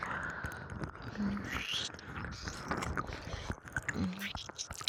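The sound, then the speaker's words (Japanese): Soft, wet kissing sounds with lip smacks and breathy whispering, close and steady throughout. “お前は身を委ねてくれればいい。ちゃんとキスを味わう。それだけに集中してくれ。”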